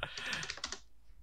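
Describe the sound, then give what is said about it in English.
Typing on a computer keyboard: a faint, quick run of soft clicks that taper off into quiet. “Can you just type in the French so that I can put that into search later on?”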